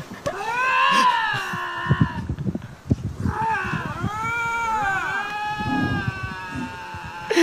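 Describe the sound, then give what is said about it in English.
Two lynx wail back and forth at each other in loud, drawn-out yowling cries with wavering, bending pitch. The calls overlap and trade off almost continuously, with rough, gravelly edges. “He was the guy that filmed those 2 lynx that were wailing back and forth at each other. There's no way to explain it besides just play the tape.”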